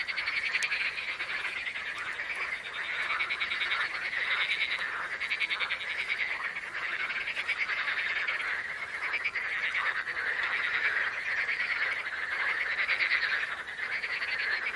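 Frogs croak together in a dense chorus. The rapid, buzzy pulsing holds steady throughout, gently swelling and easing, at a moderately soft level with no voices.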